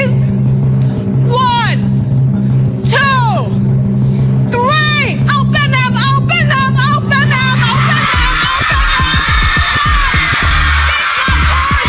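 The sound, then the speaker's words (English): A drum roll of rapid, dense strokes begins partway through after a stretch of people talking, then continues loudly to the end under a bright, hissing wash. “Drum roll, please.”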